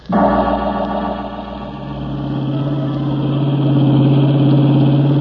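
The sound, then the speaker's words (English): A blue roadster's engine drones as the car drives down a twisting bayou road, a loud, steady low hum that holds continuously with slight swelling, no voices over it. “The blue roadster gathered moisture on its windshield as I drove down the twisting bayou road.”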